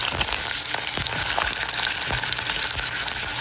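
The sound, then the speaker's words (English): Thin, shaved potato slices fry to a crisp in hot oil, giving a loud, steady sizzle full of dense crackles and small pops that never lets up. “He took the knife and shaved the thinnest, skinniest pieces of potato he could. He tossed them into the oil and fried them to a crisp.”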